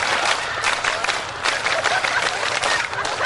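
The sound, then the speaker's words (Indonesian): A group claps a scout rhythm pattern together, a dense, loud, continuous wash of many hands with faint voices mixed in. “Tepuk satu. Nah itu baru kompak. Tepuk dua. Tepuk tiga. Tepuk pramuka.”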